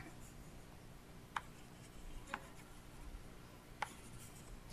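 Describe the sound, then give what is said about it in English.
Marker strokes on a board as a teacher draws a vine and its branches during a lesson. There is a soft, continuous scratchy rub, with a few brief sharp taps spaced apart. “Okay, let's go ahead and draw that. Praise the Lord. Let's go ahead and draw that.”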